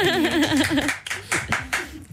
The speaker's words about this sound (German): Applaus auf jeden Fall an euch alle. Yeah. Ihr seid Gewinner.